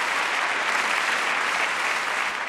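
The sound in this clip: Concert audience applause on a live recording from an Arena di Verona concert, a thick, steady wash of clapping that stays loud and even throughout.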